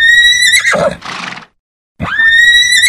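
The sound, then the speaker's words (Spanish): Horses neigh shrilly in a town plaza. A loud, wavering whinny falls away into a short silence, then a second high neigh starts and carries on to the end. No hoofbeats stand out. “Los caballos corren hacia las cuatro esquinas de la plaza y tiran, pero no rompen el cuerpo del indio.”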